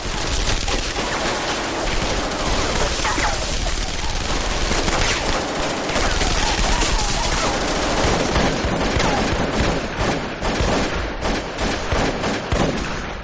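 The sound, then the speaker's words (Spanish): Sustained automatic gunfire as bodyguards shoot into church choir stalls and riddle the backs of the choir pews. Many rapid, loud shots pour out continuously with no pause for the whole stretch. “Disparan hacia el coro. Leo y sus compañeros se ponen a cubierto. Acribillan el respaldo de los bancos del coro.”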